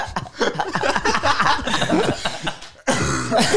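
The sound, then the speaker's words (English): Repeated harsh coughing from a throat still irritated by festival dust after Coachella, a string of rough bursts with chuckling mixed in and a brief break near the end. “Still got the Coachella cough. Still a lot of dust in there.”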